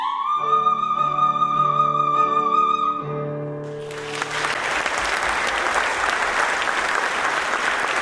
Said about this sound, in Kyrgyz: классикалык опералардагы арияларынан аткарган үзүндүлөрүнө эл канаттанбай калгандай узакка кол чаап жатышты.